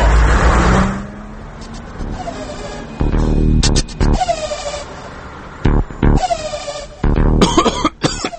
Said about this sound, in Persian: الان یه ماشینی که از فرط داغونی به جای دود گاز خردل تولید میکرد از اینجا رد شد.